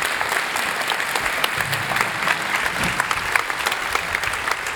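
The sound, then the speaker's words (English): Audience applause at a church gathering welcoming a speaker, dense steady clapping that holds at an even level from start to finish, with no voices. “Would you give a warm Westwood welcome to Sammy Wanyoni? Come on up, Sammy.”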